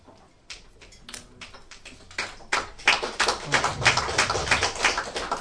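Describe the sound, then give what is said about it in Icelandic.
Clapping at a members' meeting approving a motion on the annual membership fee. A few scattered claps grow into fuller, louder applause from a small group, with distinct individual hand claps still audible. “Ég lít þá bara á að þetta klapp hafi verið staðfesting á því að það sé samþykkt og engin reifin einu mótbárum við það.”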